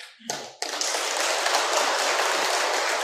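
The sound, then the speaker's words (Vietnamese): An audience claps at a gathering in Giác Ngộ Buddhist temple. A brief sound opens, then loud, dense clapping breaks in and carries on steadily to the end. “Không bớt vỗ tay đi, vỗ hoài. Cô là vỗ mồi á.”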